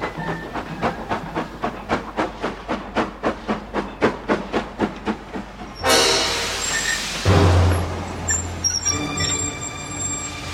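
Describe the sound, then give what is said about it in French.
Steam locomotive of a 1944 passenger omnibus train pulling slowly into a station, many loud, evenly spaced chuffs at a steady rhythm, then a sudden long hiss of released steam and heavier low rumbling as it comes to rest. “La puissante locomotive arrive au ralenti,”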